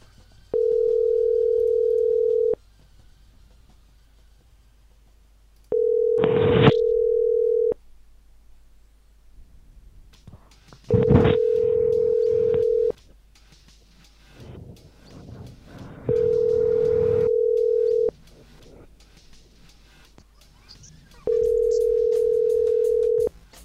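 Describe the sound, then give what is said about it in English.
A telephone ringback tone for an unanswered call: five steady, mid-pitched tones of about two seconds each, spaced by longer gaps. Faint clicks and rustles sit between the rings, and nobody picks up. “Got a good feeling about this. Someone's finally going to pick up, right?”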